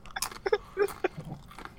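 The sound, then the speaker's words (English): Crisp crunching and chewing of tortilla chips topped with burrito bowl fillings such as black beans, steak, corn salsa, pico, sour cream and cheese, a quick series of sharp, brittle bites and munches, close and clear. “Now, to the untrained ear, you might think that I'm just eating regular chips, but no. I'm putting my Chipotle bowl onto chips.”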